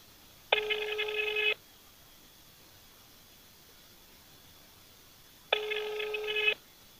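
An unanswered telephone rings twice. Each electronic ring burst lasts about a second, with a long silent gap between them.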